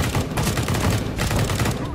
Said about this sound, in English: Contact, shots fired.